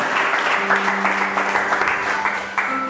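A church audience applauding, a steady, dense wash of many hands clapping at moderate loudness, with faint sustained instrumental tones running underneath.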